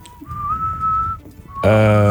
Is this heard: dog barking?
no